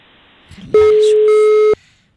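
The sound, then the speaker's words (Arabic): A single loud electronic telephone tone as a call rings through on a radio phone-in. It holds one steady pitch for about a second, then cuts off sharply. “هاي اتصال.”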